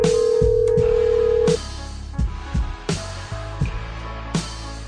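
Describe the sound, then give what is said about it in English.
A telephone call being dialed: a steady tone holds for about a second and a half, then a few short beeps and tones follow at irregular intervals, with no voices. “Let me try and call another person. Here goes.”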